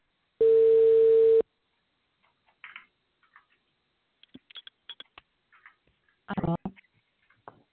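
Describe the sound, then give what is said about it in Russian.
Telephone ringing tone as an automated dialer places a call: a single steady, mid-pitched electronic tone lasting about a second, followed by near silence with faint scattered clicks and a brief murmur. “Повторный дозвон. Для соединения с... Начинаем звонить абоненту. Ожидайте соединения.”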